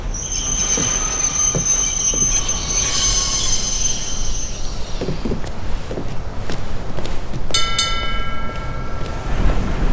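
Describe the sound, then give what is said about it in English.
Tram wheels squeal sharply on the rails over a low, rumbling trundle as the streetcar travels along its track toward a stop. The noise stays loud throughout, with shrill metallic tones rising and fading in the middle and again near the end. “A tram trundles down a track toward the town. Jiro looks out of the window and gets up as the streetcar stops.”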